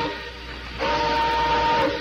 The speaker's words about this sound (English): Blow your whistle